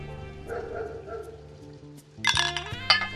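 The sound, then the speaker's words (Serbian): A dog barking in a noir night scene near a bar in the northwest Bronx: a few muffled barks over a low steady hum, followed by a couple of bright glassy clinks. “Negde zalaja pas.”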